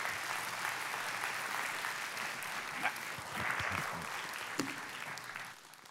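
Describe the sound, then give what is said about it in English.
Audience applause welcomes a speaker onto the stage, a dense, steady wash of clapping that holds at an even level for about six seconds before easing off at the very end. “So do me a favor and put your hands together and welcome my friend, Reuben Zussman.”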